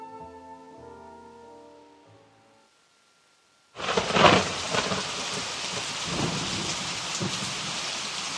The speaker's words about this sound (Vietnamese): Sấm sét nổ liên hồi, mây kéo dài trông như trời đã tối.